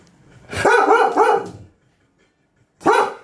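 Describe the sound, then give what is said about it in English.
A dog barking loudly: a burst of rapid, harmonic barks, then silence, then another bark, with no talk. “God damn it, I hate my dog. Stop! There's no one out there!”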